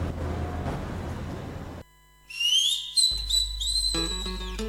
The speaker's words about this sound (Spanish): Ahí, qué silbido, ¿no?